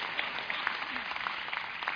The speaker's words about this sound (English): Clap, man. I feel by myself here.